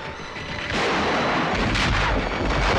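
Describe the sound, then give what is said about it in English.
A massive explosion as a monster blows up in a 1993 creature film: a dense, loud roar that swells heavier after the first second and holds steady to the end. “Like any good monster, it must explode big. And not just once.”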